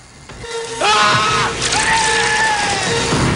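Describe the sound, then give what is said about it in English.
A man screams while being electrocuted, the current surging up a makeshift bridge over an electric fence. Two long, strained, wavering cries with sliding pitch rise out of a loud, dense, noisy background. “A blast of electricity surges up the bridge and pumps into Sorensen, who screams.”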